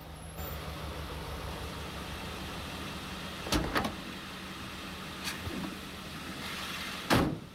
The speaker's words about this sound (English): a large box-shaped truck slows and stops in a nighttime street.